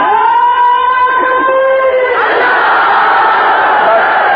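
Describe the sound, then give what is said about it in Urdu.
A crowd at a gathering shouts a slogan in unison: loud, drawn-out voices hold steady tones, then break into a broader, rougher collective roar that carries on to the end. “بہت زیادہ شوق ہو نعرہ لگانے کا تو ایک نعرہ لگائیں, لیکن نعرہ ایسا ہو کہ پتہ چل جائے نعرہ ہے.”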